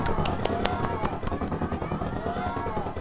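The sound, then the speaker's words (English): Fourth of July fireworks: a rapid series of sharp cracks and pops bursting over a steady rumbling wash. “That looks fire. We can watch some fireworks together. Happy July 4th,”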